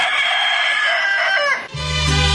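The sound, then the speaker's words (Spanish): A loud, long rooster crow held on a bright harmonic tone, breaking near the end into a lower, throatier note. “Mejor me voy con mi gallo.”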